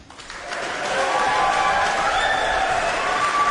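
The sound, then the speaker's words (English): Applause from an audience as semi-finalists of a competition are called back onstage: a dense, steady clatter of clapping that swells within the first second and holds loud to the end, with faint tonal sounds beneath. “Please give a warm round of applause for Amanu Fonoti Fui Ma'ono,”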